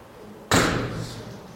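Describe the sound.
Door slamming shut: one sudden, sharp slam breaking a quiet background, then a short fading tail.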